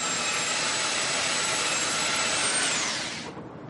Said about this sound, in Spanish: Un hombre está lijando el suelo.